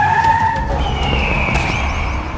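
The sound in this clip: A car's tires screech under sudden hard braking in traffic, one sustained high squeal that holds loud for the whole moment with no talk over it.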